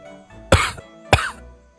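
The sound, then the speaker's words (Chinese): Two short, light coughs from a man holding a teacup, spaced about half a second apart over a faint steady background tone. “轩辕杰才端着茶杯轻轻地咳嗽了一声”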